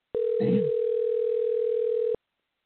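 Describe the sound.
Ringback tone of an outgoing telephone call, one steady mid-pitched ring lasting about two seconds, with a short burst of rustling noise near its start.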